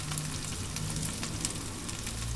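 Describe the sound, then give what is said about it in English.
Onions softening and frying in peanut oil in a pan give a faint, steady sizzle with fine crackling pops throughout, alone and without talk. “Peanut oil and onions. So good. I'm just going to soften up those onions for a minute or two.”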